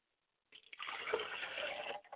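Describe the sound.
Water poured onto the ground as a libation: a few brief spatters, then a steady splashing stream lasting about a second and a half before it trails off. No voices are heard.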